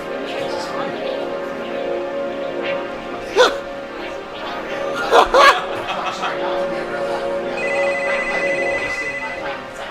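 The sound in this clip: A telephone ringing, heard as a steady electronic pulsing tone in the last seconds, beneath people talking and laughing.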